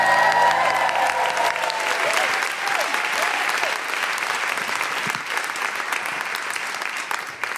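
Dense, sustained applause from a live stage-show audience welcoming a performer, many hands clapping loudly and evenly throughout, easing only slightly toward the end.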